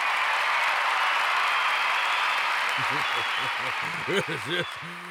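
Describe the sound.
Audience applause welcoming guests at a goblin pancake breakfast: a dense, steady wash of clapping that holds throughout, with a voice rising over it in the last couple of seconds.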